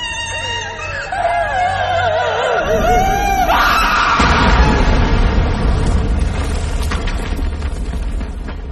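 A ghostly shriek inside a house begins as a shrill, wavering wail that dips and climbs, then breaks into a loud, harsh, noisy rush that slowly fades.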